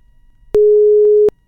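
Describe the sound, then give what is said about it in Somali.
Busy tone on a phone line after a caller's call dropped during a phone-in: a single loud, steady low-pitched beep lasting under a second, with no voices. “Khadka telefoonka ayaa dhegeystahaasi ka go-ay”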